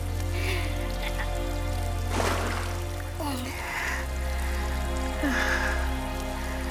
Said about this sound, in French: C'est les égouts? Non. Non, c'est les canalisations qui ramènent l'eau du fleuve vers les puits. Ça doit déboucher sur le fleuve plus loin.